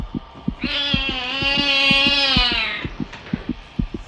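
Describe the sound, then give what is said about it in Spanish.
A cat's long, drawn-out meow rises into a sustained wail, then fades, over a steady thumping heartbeat that pulses many times through the whole passage. “Ese maldito gato otra vez.”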